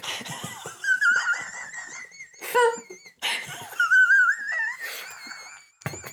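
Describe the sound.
A person chokes and coughs after inhaling a sip of wine, letting out strained, high-pitched wheezing gasps broken by several harsh coughing bursts of varying loudness.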